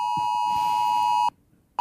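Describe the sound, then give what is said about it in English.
Emergency alert test tone sounding on mobile phones: a loud, piercing, steady beep with a buzzy edge, held for over a second and then cut off abruptly, with a brief burst starting again at the very end. “That will be the future alert for any sort of, emergencies. That will come up and then it'll appear on your screen what the emergency was. But just a bit of a test today.”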